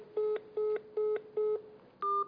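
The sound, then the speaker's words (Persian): Five dual-tone keypad beeps are heard as a telephone number is dialed. Four evenly spaced, similar tones are followed by a fifth with a different pitch. All are short and fairly quiet. “من با ایشون تماس بگیرم.”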